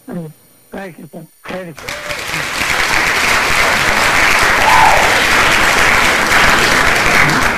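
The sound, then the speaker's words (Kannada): A voice speaks briefly, then audience applause rises at a quiz show, swelling into loud, sustained clapping that stays steady for several seconds. “ಚಪ್ಪಾಳೆ.”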